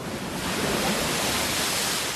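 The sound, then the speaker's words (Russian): Churning river water rolls in a dense, steady rush of broad hissing noise that stays even and unbroken throughout, with no separate wave surges standing out. “Вот закипела вода в белой реке, волна за волной идет, горами вздымаются.”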